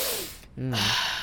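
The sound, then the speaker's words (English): A sharp, sudden inhale, a short breathy gasp with a slightly voiced edge, bursting in right after a brief hush and then trailing into soft background noise. “Don't inhale like that.”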